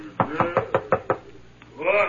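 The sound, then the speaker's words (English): Six quick, sharp knocks on a laboratory door come in a steady rhythm, followed by a brief pause and a voice at the end. “And every time I knock, wait, and you shall see. Here's the door.”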